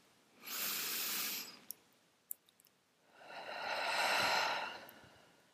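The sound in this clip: One deep, full breath, heard alone: a soft, airy inhale of about a second, a few tiny clicks in the pause, then a longer, slower exhale that swells and gently fades.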